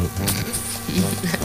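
An insect buzz, bee-like, drones fairly loudly for about a second and a half, its low pitch wavering slightly throughout.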